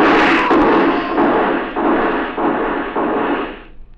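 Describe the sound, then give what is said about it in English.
Gunshots fired in a radio drama: several loud, sharp cracks in quick, fairly even succession, each trailing into a short ringing decay, with no voices between them. “Why didn't it work? They shot at me.”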